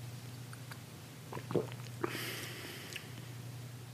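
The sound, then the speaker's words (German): A faint slurping sip of a grayish milk substitute, with a few small wet mouth clicks and a brief airy slurp over a steady low hum. “Ich nehme einen Schluck.”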